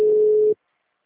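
A telephone tone while a call is being placed: one steady, held beep lasting about half a second, then silence.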